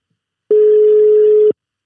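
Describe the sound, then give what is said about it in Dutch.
A telephone ringing tone sounds as a call is placed: one steady, mid-pitched beep lasting about a second, loud and alone, with no voices. “Laten we maar even gaan bellen.”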